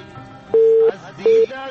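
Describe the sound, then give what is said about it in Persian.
A busy tone follows a dropped phone call on a call-in line: two steady, low, electronic beeps, the first longer than the second, separated by a gap over a faint background hum. “تماس کشمن جان قطع شد”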